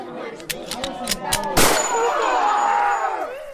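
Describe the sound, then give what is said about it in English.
A single loud gunshot bang with a long ringing, decaying tail, preceded by several lighter metallic clinks. “I apologize for that. I don't like guns. To tell the truth, they scare me. They smell of metal and oil, and I think that's pretty gross. That's why I decided to use this recording of a gunshot that I have saved to”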